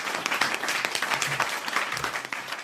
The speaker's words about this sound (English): Wait a minute, let's get some cheers in here.